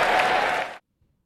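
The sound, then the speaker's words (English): A crowd applauds a line in a political speech, a loud, dense burst of clapping that cuts off abruptly after less than a second. “How does that become an applause line?”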